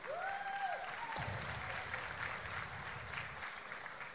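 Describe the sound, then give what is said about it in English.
Faint, thin audience applause for a youth group, a soft steady patter of clapping that stays low and even throughout without building. “that's a horrible, horrible clap for your great group of kids.”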